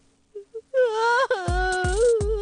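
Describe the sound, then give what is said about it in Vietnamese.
A woman, a mother, cries: a couple of short, faint whimpers lead into a loud, sustained wailing moan, broken by brief sobbing catches. “Thôi đi, mẹ đừng có khóc nữa.”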